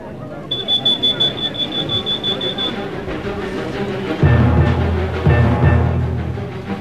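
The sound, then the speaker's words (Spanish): An alarm sounds in rapid, high-pitched, piercing beeps for a couple of seconds, then stops, followed by lower rumbling and heavier thudding noises. “La alarma ha sonado.”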